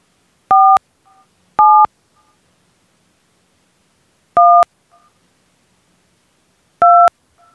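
Four touch-tone keypad beeps dial a room extension on a beach resort's automated phone line. Each is a short, steady dual-pitched tone, and they are spaced unevenly with silence between them.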